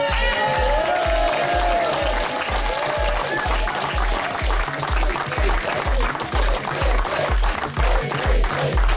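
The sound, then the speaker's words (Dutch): Cheering and applause from party members greeting their leader the day after a big parliamentary election win. Dense, continuous crowd noise with a steady rhythmic low thumping underneath, loud throughout. “PVV-leider Wilders werd vandaag met gejuich onthaald door zijn fractie na de megawinst van gisteravond bij de Tweede Kamerverkiezingen.”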